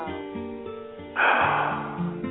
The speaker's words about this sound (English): Inhale. Exhale.